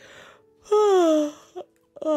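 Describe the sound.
A person yawns aloud in a long voiced moan that slides downward in pitch, followed by a couple of shorter vocal sounds.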